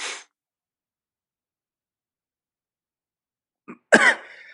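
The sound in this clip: A sudden harsh cough breaks a long silence as something like a hair catches in the throat. A short catch comes just before the single loud, rasping burst, which trails off in a rough tail.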